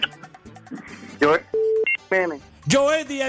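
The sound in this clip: Telephone ringing on an incoming call to a radio call-in line: a steady mid-pitched tone, then a couple of short higher beeps, set among a voice talking before and after.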